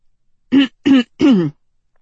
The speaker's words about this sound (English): cleared his throat